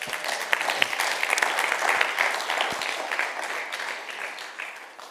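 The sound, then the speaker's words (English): An audience applauds to welcome a guest speaker with dense, steady clapping that holds strong, then gradually thins and fades toward the end. “Well, you put your hands together. You guys are in for a treat. And welcome our very own Dr. Dave Colon.”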